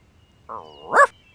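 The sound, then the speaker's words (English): A dog gives a single vocal burst, a short whining tone that rises into one sharp bark, heard alone against near silence. “I'm Annie's dog. I'm brown and white, and I love to dig.”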